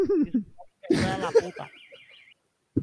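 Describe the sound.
A motorcycle alarm warbles briefly in a high, wavering tone after a burst of laughter and voices, then cuts off into silence.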